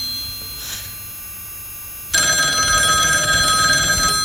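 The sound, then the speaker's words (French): A telephone rings after a number is dialed. The steady, bell-like electronic ring starts abruptly partway through after a quiet stretch and continues fairly loud and unbroken to the end. “déjà on compose le numéro. Ah oui. Donc on l'appelle, hein. Ah, ça sonne chez Cyril.”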